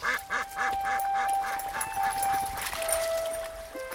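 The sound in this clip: Ducks quacking while a dog chases them: many rapid, rhythmic nasal quacks overlapping in a loud, continuous flurry.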